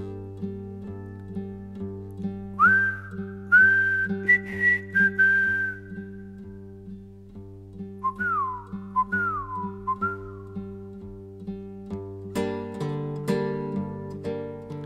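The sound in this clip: A soldier song's refrain is whistled as a secret recognition signal. Two clear, high whistled phrases are heard over steady instrumental accompaniment, which swells louder after the whistling ends.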